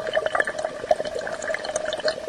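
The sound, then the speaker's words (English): Water bubbling in a water bong, a steady gurgling burble with rapid, irregular little bubble pops throughout. It is moderately loud and continuous, with no voices. “Yeah, it's a water bong.”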